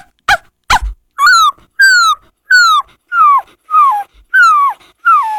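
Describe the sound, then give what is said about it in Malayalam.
A human voice imitates a puppy in a school mimicry performance: two sharp yips, then seven whimpering yelps, each sliding down in pitch, evenly spaced and clear with no other sound. “ആദ്യമായി നായ്ക്കുട്ടി.”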